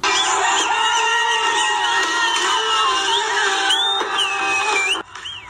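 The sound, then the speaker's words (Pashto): Crowds in the streets of Khost province, Afghanistan, celebrate the national cricket team's win over Australia with a loud, sustained roar of cheering, whoops and shouting voices that drops off abruptly near the end. “د افغانستان خوست ولایت کې سلګونه خلک واټونو تر ووتل او دا بریاي په اتنونو او پټاقیو په چولو ونمانځله”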